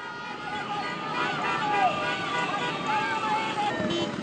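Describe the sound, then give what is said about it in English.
Dense street din from dozens of motorbikes and cars full of flag-waving demonstrators at a protest in Caracas, Venezuela: a continuous, steady roar of engines and crowd voices blended together, with no clear breaks. “that's the sound of dozens of motorbikes and cars full of demonstrators waving giant flags and banners in support of Ms. Machado”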